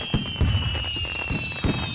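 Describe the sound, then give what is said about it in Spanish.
Fireworks exploding, a few dull booming pops with thin whistling tones sustained above them and a constant crackling wash. “Lentamente, las ruidosas explosiones comienzan a poblar el ambiente. Al fin, mis sobrinos se dan por vencidos y corren hacia el patio para ver los fabulosos colores que encienden el firmamento.”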